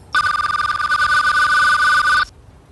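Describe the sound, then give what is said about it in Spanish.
A telephone rings with an incoming call: one sustained electronic ringtone with a rapid warbling trill, loud and alone, starting abruptly and cutting off after about two seconds. “Una segunda llamada del 3.”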